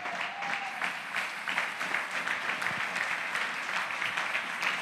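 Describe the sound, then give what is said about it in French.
A church audience applauds to acclaim the word of God, producing a soft, steady patter of many hands clapping that holds at an even level throughout. “Acclamons la parole de Dieu.”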